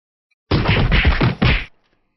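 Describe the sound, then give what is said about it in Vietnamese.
Heavy punching blows land in a rapid run as a giant four-armed ape pounds a blood-red giant above the sea surface, each thwack a loud, dense thud that merges into the next before stopping abruptly. “Tiếng va đập liên hồi không ngừng vang lên”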